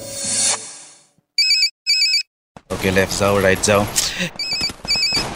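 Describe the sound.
A mobile phone rings with an incoming call: two short bursts of a bright electronic ringtone, then a voice talking while the ringtone keeps sounding in brief pulses.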